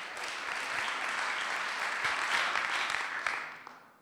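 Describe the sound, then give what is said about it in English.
Audience applause welcoming a speaker to the stage: steady, dense clapping from a crowd that holds evenly, then thins and fades out at the end. “So would you please put your hands together and welcome Pete Portal.”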